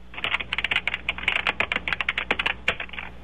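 Rapid typing on a computer keyboard: many crisp, clicky keystrokes in quick, uneven bursts with short pauses, fairly faint and alone without voices.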